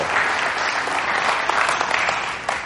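Warm applause from a church audience welcoming a pastor to the stage on a Mother's Day morning. The clapping is dense and continuous, holding an even, fairly loud level from start to finish with no voices.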